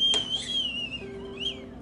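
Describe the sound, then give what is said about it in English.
A small red teapot whistles while coffee brews. A thin, faint, high whistle wavers and sinks slightly, then briefly rises again, with a short click near the start. “Every morning, join me for a delicious cup of Nescafe as I brew it on my fresh, cute little red teapot”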